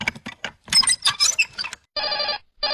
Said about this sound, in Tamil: அட, இது என்ன போன் அடிக்குது வீட்டுக்குள்ள?